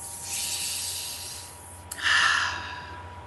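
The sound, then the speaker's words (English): A deep breath taken during a group meditation: a long, airy inhale followed by a brief catch and a louder, breathy exhale. No talking. “let's everybody take a deep breath.”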